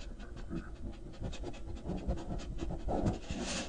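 A dog sniffing, many quick breathy snuffles and pants in a steady, continuous stream at moderate loudness, with no voices.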